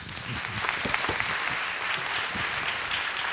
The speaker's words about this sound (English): So come, we welcome you. Let's give it up for Rick.